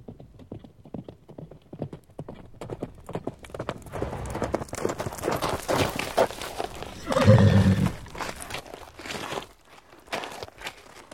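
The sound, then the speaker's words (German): Hooves of a sweat-soaked horse galloping into a camp, carrying a messenger, as a steady run of rapid clip-clop beats, with a loud whinny partway through and then fading hoofbeats. “als ein Bote auf schweißnassem Pferd in das Lager galoppiert”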